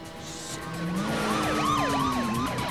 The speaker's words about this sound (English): Three more police cars appear.